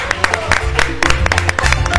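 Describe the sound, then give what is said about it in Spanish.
Audience applause at a comedy show: loud, dense clapping crackles throughout, with crowd voices mixed into the din. “¡Apláudalo al que, porque es judío, no lo aplaude!”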